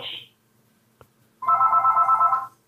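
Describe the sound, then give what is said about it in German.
A telephone ringing: one trilling electronic ring of about a second with a rapid pulsing mid-high tone. A brief, unrelated high blip comes first, then a quiet gap. “Mutti deine Mutti ruft an.”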